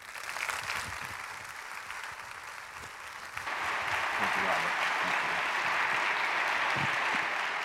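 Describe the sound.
Audience applause welcoming a guest speaker at a faith gathering: it begins after a few seconds of spoken introduction and swells into steady, sustained clapping that lasts to the end.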